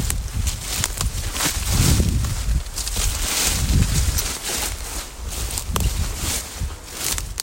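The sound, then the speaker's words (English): Someone walks off the path through waist-high brambles while searching for pines. Dense rustling and scraping of stems and leaves is mixed with irregular footfalls and stays loud and continuous throughout. “Funny thing with brambles, isn't it? Walk through them for half an hour.”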